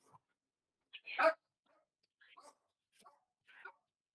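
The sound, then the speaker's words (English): Excited dog barking in a few short bursts: one stronger bark early on, then several lighter yips spaced apart. It is fairly faint, with quiet gaps between the barks. “Sorry, the dog gets excited. And he does his little wee dance.”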